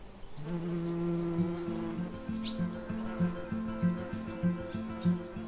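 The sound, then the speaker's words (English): Outdoors, birds chirp faintly and bees buzz in a steady drone, while frogs croak in a regular series of low, pulsing calls that grows more distinct through the second half. “You know, you can hear birds, bees, frogs. You can hear them croaking. You know, different things. Even flies. You know, they make certain noises. You can hear everything.”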